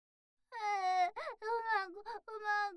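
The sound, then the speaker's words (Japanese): A voice whimpering and crying in a few wavering, high-pitched sobs, each breaking off briefly before the next starts, with no other sounds around it. “ほーらほーら、泣かないの。”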